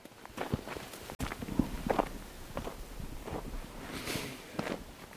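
Footsteps of people walking through the lower part of the village of Vrin: many soft, uneven steps and scuffs tread along steadily at a faint level, with no voices.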